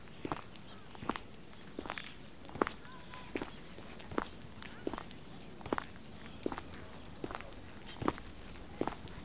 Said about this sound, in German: So, jetzt hinter der Hecke gehen wir rechts und dann direkt links über den unbefestigten Weg.